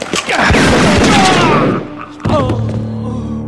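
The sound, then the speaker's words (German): Gunshots in a shootout between a gunman and police: a loud rapid volley of sharp bangs over a dense roar, a brief lull, then one more heavy hit followed by a lingering tonal ring. “Verdammt, Mann, legen Sie die Waffe weg oder ich muss scharf schießen.”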